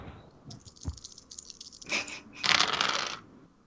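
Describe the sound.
Dice clatter across a table during a tabletop roleplaying game, with a few short rattling bursts. The last two bursts are the loudest.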